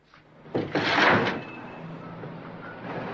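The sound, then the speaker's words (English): A window slides open with a single scraping, rumbling slide lasting about a second, louder than the low background hush that follows. “then goes over to the window and slides it open.”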